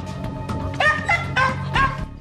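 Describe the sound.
A dog barks and jumps in its kennel, giving a few sharp, quick barks mixed with higher yips over a low rumbling background.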